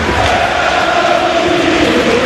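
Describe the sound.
A stadium crowd at a football match between Burgos Club de Fútbol and Club Deportivo Lense roars steadily as one dense, continuous murmur with faint sustained chant-like tones.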